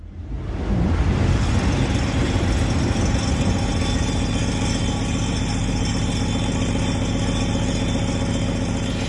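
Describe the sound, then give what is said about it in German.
A train rushes past as part of the art installation Heppernder Tisch by Jana Debroth, a loud, continuous engine-like rumble with deep low-end vibration that swells in within the first second and then holds steady throughout, with no voices. “Heppernder Tisch heißt das Ganze und ich glaube, wir haben da die Bahn, die da vorbei brettert, gehört.”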